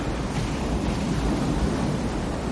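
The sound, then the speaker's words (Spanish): Large grey and silver ocean waves roar on a beach under a leaden sky. The wash is loud, dense and continuous, mixed with wind, with no distinct breaks between swells. “Grandes olas gris y plata se recortan bajo un cielo plomizo.”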